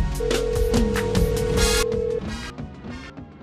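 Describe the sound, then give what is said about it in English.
A phone call is placed, and a single steady, mid-pitched ring tone holds for about two seconds over a busy tonal bed, which then carries on alone, lower and quieter. “Tanisha Johnson, let's dial her up.”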